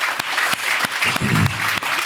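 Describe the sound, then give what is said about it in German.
Applause from a crowd honoring a medal recipient at an awards moment, dense clapping with sharp individual claps standing out over the steady patter for about two seconds. “Einmal einen Applaus für den Schorsch”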